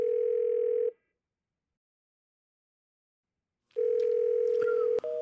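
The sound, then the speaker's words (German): A steady telephone dial tone sounds while a call is placed. It holds at one even pitch for about a second, cuts to silence, then returns for another steady stretch before changing to a different tone at the very end. “Also kann ich ja nochmal den Haudinghausen anrufen, auch wenn ich mir natürlich keine Hoffnung mache.”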